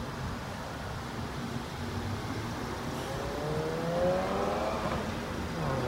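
Ford Bronco returning from a test drive: a faint, low engine hum and whir over steady background noise, growing a little louder with a brief rising tone toward the end.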